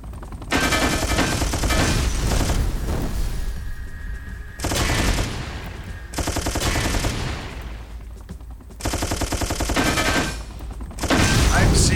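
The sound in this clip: Gunfire from a machine gun and rockets in a video game battle against fleets of enemy craft: loud, rapid bursts of shooting broken by short pauses, several volleys in a row with heavy low booms among them.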